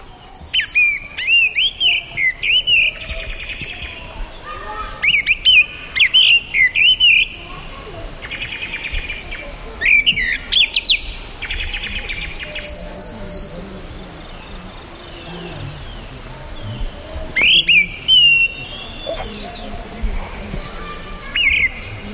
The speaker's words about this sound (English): Here's the sound of the gray-winged blackbird recorded in 1982 in India.